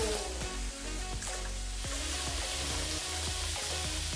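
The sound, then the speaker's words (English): Chicken wrapped in prosciutto sizzling in a hot frying pan, a steady, fairly quiet crackling hiss that continues without pause. “So important to have that frying pan hot. Nice and hot, absolutely. Yep. You really want to hear that sizzle.”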